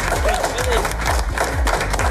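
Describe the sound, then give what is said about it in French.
Applause and cheering from a morning crowd gathered to support a show's hosts, a dense, steady wash of clapping with voices calling out throughout and a few whistle-like whoops rising above it. “Bienvenue à vous les amis, vous pouvez encore vous applaudir.”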